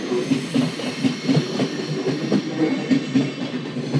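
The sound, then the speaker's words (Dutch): A passing train with a mixed collection of wagons rumbles steadily. A regular clickety-clack of wheels over rail joints repeats in an even rhythm, fairly loud throughout. “Ja, deze gaat waarschijnlijk naar Wenen. bonte verzameling van wagons.”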